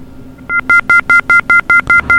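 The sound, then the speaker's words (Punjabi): A telephone keypad dials a call-in caller back after a dropped line: a quick, even run of nine dual-tone beeps, each short and bright, with no talking over them. “ਮੇਰੇ ਲੱਗਦਾ ਕਿ line ਹੈ ਜਿਹੜੀ disconnect ਹੋ ਗਈ ਆ ਔਰ ਮੈਂ ਰਮਨ ਜੀ ਨੂੰ ਲਾਈਨ ਮਰਾ ਰਿਹਾ”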